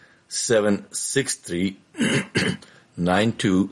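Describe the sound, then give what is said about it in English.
A man clears his throat repeatedly with a frog in his throat, several rough, voiced rasping bursts separated by short pauses, fairly loud and alone. “if you hear me doing a little clearing of the throat, I got a frog in my throat.”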